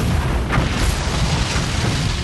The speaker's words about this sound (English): it ends with an explosion